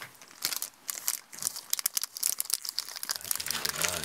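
A chocolate wrapper crinkles as it is opened during a long walk, with many sharp, irregular crackles and rustles coming in quick clusters, fairly soft overall.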